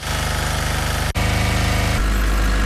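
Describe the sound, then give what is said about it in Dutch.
Power generators running in a Ukrainian city during blackouts make a steady, droning engine rumble with a regular pulsing beat. A brief dropout interrupts it, and it shifts to a deeper, heavier tone near the end. “Zo klinken nu alle steden in Oekraïne. Overal ronken de generators. Groot, klein, stil, hard.”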